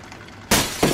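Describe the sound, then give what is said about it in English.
A brick smashes through a glass window: a sudden loud shatter, then a second burst of breaking glass a moment later. “An object goes through the window behind her, and she turns. Frightenedly, Rena looks at the table, looks at the brick which has the note tied to it.”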